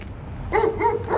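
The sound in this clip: A dog barks three times in quick, fairly even succession. The short, quiet barks sit over a low background rumble.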